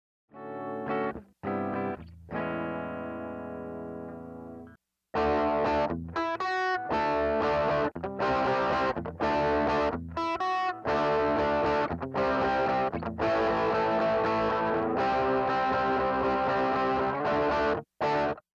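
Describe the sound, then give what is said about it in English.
Electric guitar chords: three sustained chords ring out on a clean tone, then a treble booster pedal kicks in, driving the amp into a brighter, gritty, distorted sound as the strumming turns dense and continuous. “Once again, I'm going to play three chords just on the clean tone, and then we're going to kick on the treble booster, that way you can see what it's doing to the guitar signal.”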